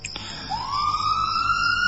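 Ambulance siren arriving at a hospital emergency department at night: a loud, steady electronic wail that swoops upward in pitch and then holds a sustained tone, with no voices.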